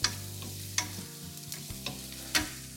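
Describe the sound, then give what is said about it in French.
Small onions sweat in oil in a pan with a low, steady sizzle. It is broken by a few sharp knocks and scrapes of stirring. “et de les faire rejoindre les petits oignons qui sont en train de suer. Je vais rajouter encore une cuillère à soupe d'huile dans mes oignons.”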